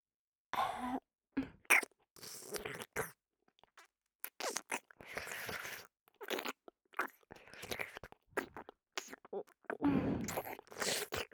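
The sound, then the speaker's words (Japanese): Wet licking and slurping mouth sounds at both ears in an ASMR session come in many short, irregular bursts separated by silent pauses. “耳なめ始めていくからね。いただきます。”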